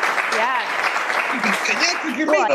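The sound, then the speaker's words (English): Applause for President Trump, a steady wash of clapping that lasts throughout while voices talk over it. “How about a round of applause for President Trump? Yay!”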